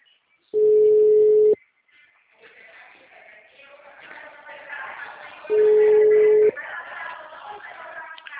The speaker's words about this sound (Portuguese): Atende, cara. Ninguém me atende. Ninguém me atende. Tô o dia inteiro ligando. O número está ocupado.